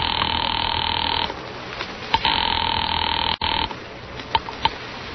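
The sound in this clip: A telephone rings on the line while a caller waits to reach the police department. Two long, steady buzzing ring tones are separated by gaps filled with clicks and line noise.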